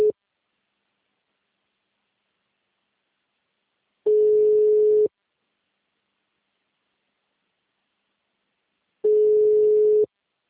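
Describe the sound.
A telephone ringback tone heard while calling someone: a steady single-pitched tone sounding for about a second at a time, with two full rings about five seconds apart after a brief fragment at the start.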